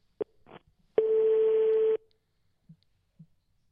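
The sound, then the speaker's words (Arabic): A telephone busy signal sounds as a single steady mid-pitched tone lasting about a second, preceded by two short clicks and followed by two faint brief blips against silence. “الهاتف مشغول للاسف للاسف”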